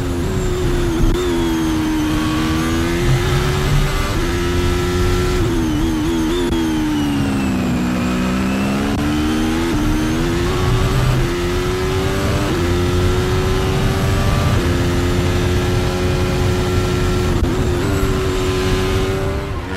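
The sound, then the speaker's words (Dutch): A Ferrari Formula 1 race car engine roars onboard while the car porpoises, a loud, continuous high-pitched whine whose pitch dips mid-clip, then climbs again and shifts repeatedly. “De power en de snelheid die de Ferrari heeft. Inclusief dat porpoising.”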